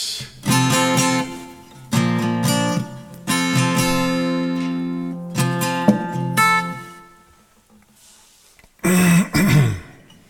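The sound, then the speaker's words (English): Throat clearing and hacking: a couple of harsh, rough bursts close together near the end, loud and raspy, after a long stretch of other sound. “Thanks for dealing with my throat tonight. I usually don't do as much hacking as I did tonight, but I was like, I'm determined to get it out”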